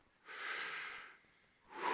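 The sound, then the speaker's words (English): A deep breath is taken during a guided pause in a church sermon: a faint, airy breath lasting nearly a second, a short quiet gap, then a second breath starting at the end. “I want us to all take a breath. One more.”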